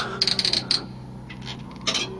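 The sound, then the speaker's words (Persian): A door opens with a quick burst of light metallic rattling clicks, then quieter clicks and a short final rattle. “در باز شد”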